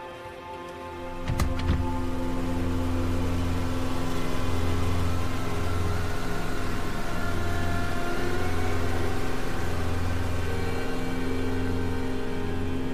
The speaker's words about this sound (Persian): ماشین توی جاده تاریک حرکت میکنه.